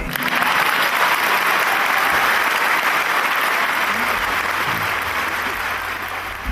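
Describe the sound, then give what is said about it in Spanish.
Applause for an interviewee: dense, steady clapping that fills the whole stretch and eases slightly near the end. “vamos a inaugurar una nueva sección del programa, que es aplaudir al entrevistado.”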